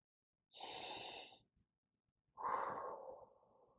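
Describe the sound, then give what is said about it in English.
Deep breaths taken as a calming habit exercise: two long, airy breaths separated by a short pause, the second fuller and slowly trailing off, with no talking. “take a few deep breaths. Let's do that now. One more.”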